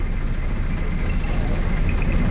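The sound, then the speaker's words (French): A boat engine with a faulty water pump drones on a river journey through the forest, a steady, low, continuous hum without breaks. “C'est la panne, le moteur ralenti. Carlito dit que c'est la pompe à eau qui fonctionne mal.”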